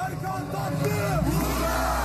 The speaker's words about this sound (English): In a protest attended by thousands last night, the crowd called out the names of arrested students.